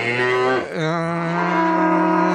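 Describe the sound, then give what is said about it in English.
A cow moos loudly with a deep, rich tone. The call briefly breaks, then resumes lower and holds steadily for over two seconds, with no voices. “number five, cows. Cows, there you go.”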